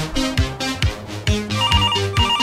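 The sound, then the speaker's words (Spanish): A telephone ringtone plays during a call-in: a bright electronic melody over regular low percussive thumps, loud and steady, with no voices. “Tenemos un mensaje teléfono. Por ahí. Tenemos teléfono.”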